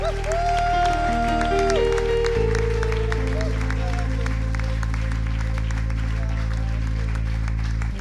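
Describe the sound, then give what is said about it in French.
A church audience applauds in praise, with dense, steady clapping running the full length over sustained musical notes. “Acclame le Seigneur Jésus-Christ de Nazareth pour le frère Pascal Kouakou, premier responsable de Healing Clinic.”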